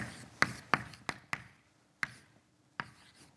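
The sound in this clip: Writing on a board during a physics lecture full of equations: brisk, irregular sharp taps and short scratchy strokes, roughly seven distinct hits spread over a few seconds, with no voice.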